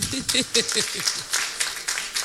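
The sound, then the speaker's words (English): Audience clapping for the women at a live gathering, a quick, steady run of claps continuing through the whole moment, with a man talking over the first half. “let's clap for our women here are you not clap for yourselves”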